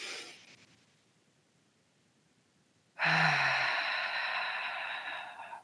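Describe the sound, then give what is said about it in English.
A deep breath drawn in through the nose and let out through the mouth during a breathing exercise: a long, loud, airy exhale that starts abruptly after a near-silent pause, with only a faint breath sound at the very start. “So you're inhaling through your nose and pulling the breath all the way up to the chest and then exhaling through the mouth.”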